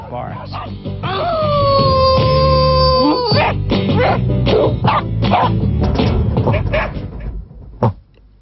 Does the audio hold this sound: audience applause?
no